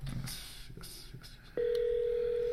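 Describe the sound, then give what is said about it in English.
A telephone call is placed. A few faint clicks and taps are followed by a steady, loud mid-pitched tone that starts abruptly and holds to the end. “We're going to call the old man right now.”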